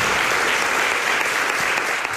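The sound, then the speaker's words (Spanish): Sustained audience applause for a guest: a thick, even roar of many hands clapping, loud and unbroken from start to finish. “Jesús Callejo, como siempre, te llevas este aplauso.”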